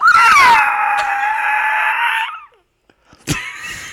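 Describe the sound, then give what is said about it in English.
A person imitates a raptor dinosaur call with one long, shrill, screeching cry lasting about two seconds and sliding slightly lower. After a short silence comes a brief sharp burst. “Dinosaur noise. I love dinosaurs. Let me hear it. You want to hear my raptor?”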